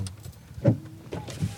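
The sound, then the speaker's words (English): Electric window motors whir as the power windows of a Porsche are lowered, giving a couple of short mechanical hums that rise out of a low background hiss. “And then, did you lower the windows in your Porsche? It's a tad stuffy in here. Do you want me to... Just crack them a little bit, like the old days at the drive-in movie.”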